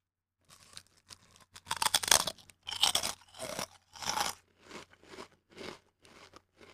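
Crisp crunching of a snack being bitten and chewed, from a pack holding two pieces: a series of dry crackling crunches, soft at first, loudest in the middle, then tapering into smaller bites, with no talk.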